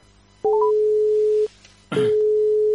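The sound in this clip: Telephone ringback tone while a call connects: a steady single-pitched beep lasting about a second, opened by a brief rising chirp, then a short pause and a noisy click before the same tone starts again.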